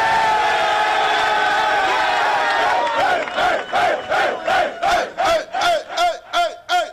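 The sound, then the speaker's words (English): Football players cheer in a locker room for their head coach after a win: a loud, sustained group yell breaks into many rhythmic shouted chants on a steady beat, bursts of massed male voices. “Does that sound like a locker room that doesn't love their head coach?”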